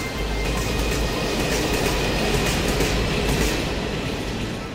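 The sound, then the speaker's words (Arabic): A train runs on the Hejaz Railway, the late-Ottoman line linking Damascus and Medina, producing a loud, unbroken rumbling roar of wheels on rails that holds steady throughout, with no voices. “إذا بدك تروح من دمشق للمدينة المنورة فيك تركب قطار الحجاز اللي تأسس بنهاية فترة السيطرة العثمانية”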